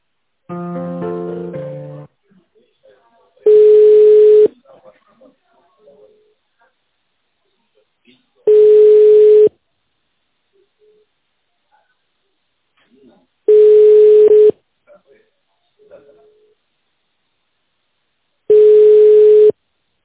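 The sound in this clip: Telephone line tones sound while a business call is being transferred: a brief tonal burst, then four long, steady, identical beeps spaced about five seconds apart, with near silence between them.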